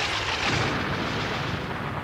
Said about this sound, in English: Howard pressed the trigger of the neutron disintegrator. And the Dark Overlord disappeared in a tremendous flash of fire.